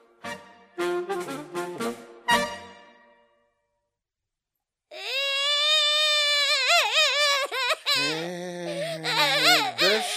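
A king's daughter, a princess, cries: a run of short, broken sobs fades into a brief silence, then gives way to a long, high, wavering wail whose pitch rises and falls, with no other voices.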